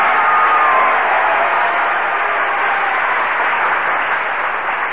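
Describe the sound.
Studio audience applause for a soprano in a singing contest, a loud, dense wash of clapping that holds steady for the full five seconds with no voices over it.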